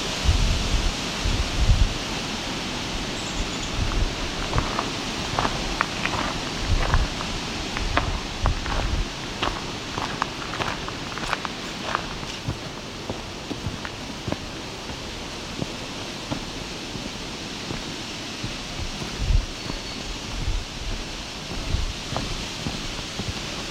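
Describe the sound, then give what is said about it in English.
Wind rustles aspen leaves in a dense, continuous hiss full of crisp, crackling flutters that swell and ease throughout, with no voices. “Aspen, very loud trees in the wind, doesn't matter how much wind, it's going to sound like that.”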